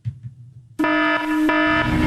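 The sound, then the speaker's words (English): Livestock barn alarm sounding a loud, steady electronic tone with a bright, buzzy harmonic edge. It cuts in abruptly after a brief low rumble and holds continuously to the end, with only slight momentary dips. “Protect your livestock with AP and Agri Alert Alarms.”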